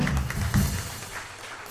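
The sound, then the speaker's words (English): A church audience gives a hand clap of praise to God during worship, a dense burst of many hands clapping together that stays steady and then slowly fades. “Give God another hand clap of praise.”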